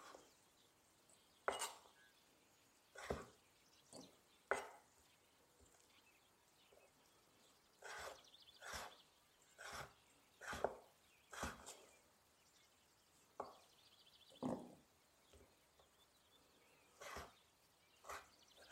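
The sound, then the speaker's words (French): A knife slices sun-dried tomatoes lengthwise on a board, giving many sharp, faint cutting taps in an uneven rhythm over a low hiss. “et donc je vais couper mes tomates séchées dans le sens de la longueur. Si elles sont très très larges, je les coupe en trois dans le sens de la longueur. Si elles sont plus petites, je les coupe en deux.”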